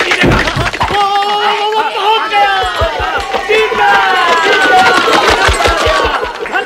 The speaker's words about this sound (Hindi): अरे वो देखो क्या रथ की दौड़ शुरू हो गई। देखो तो अरे क्या बाकी और सजीले सवार है।